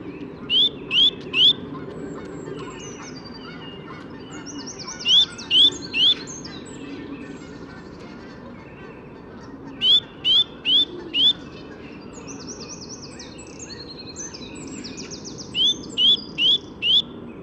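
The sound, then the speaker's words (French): A blue tit sings among other birdsong, repeating four short phrases of three or four high, clear notes at intervals over a steady low background. “Il y a une mésange bleue qui se mêle à l'ambiance.”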